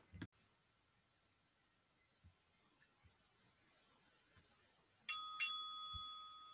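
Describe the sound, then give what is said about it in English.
A bell rings twice in quick succession with bright, sustained metallic tones that keep ringing to the end, after near silence broken only by a few faint taps. “That was the sound of a bell.”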